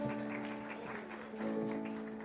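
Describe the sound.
A church audience applauds, a steady, dense crackle of many clapping hands holding an even level throughout, with sustained musical tones underneath.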